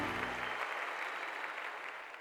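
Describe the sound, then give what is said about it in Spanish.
Applause from a crowd celebrating one person: dense, even clapping that stays fairly quiet and eases off slightly toward the end. “esa fiesta de palmas a él.”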